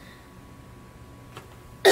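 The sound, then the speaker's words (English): A single sudden cough from a person bursts out loudly at the very end, after a quiet stretch with only a faint steady hum. “Excuse me, I'm coughing all of a sudden.”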